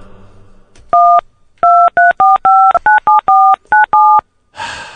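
Touch-tone telephone keypad dialing: ten clear beeps in an uneven rhythm, some pressed quickly in succession, followed by a brief noisy burst at the end.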